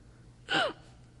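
A person imitates a hiccup with a single short, sharp gasp-like intake of breath whose tone slides downward, heard alone against a quiet background.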